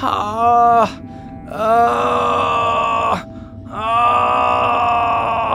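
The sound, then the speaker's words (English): People moaning from across a walking path that leads between stumps: three long, drawn-out voiced moans separated by brief pauses, loud and sustained. “You also hear from across like the walking path that people would take to get to the different stumps, you hear moaning.”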